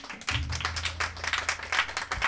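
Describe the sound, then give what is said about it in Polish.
A concert audience applauds the band's singer with brisk, continuous clapping over a low, steady sustained tone that drops out near the end. “Proszę o oklaski.”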